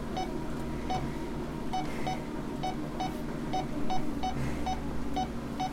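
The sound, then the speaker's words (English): Short electronic beeps from a heart rate monitor during heart rate recovery after an exercise bike test, repeating many times at a fairly steady pace over a low background hum. “And now I'm watching your heart rate recovery, and you obviously can hear that on that. But that's your heart settling back down to normal rate as well.”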